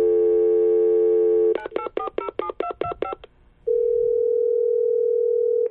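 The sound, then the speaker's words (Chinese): A landline telephone on speakerphone plays a steady dial tone, then a quick series of keypad dialing beeps. After a short gap, a long, even ringback tone follows. “听筒里传来等待的提示音，起初对方将电话给挂断了”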